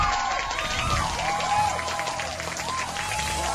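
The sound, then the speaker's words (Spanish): Audience applause breaks out for a performer at an evening bohemian music show, a steady, even patter of many hands clapping at moderate level across the whole stretch. “Un aplauso para Cristina ahí, ¿eh? Muy bien lo tuyo,”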